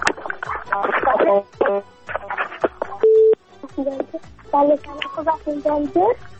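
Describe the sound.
A phone line gives a busy tone after a call is cut off: one steady electronic beep sounds briefly in the middle, between stretches of talk.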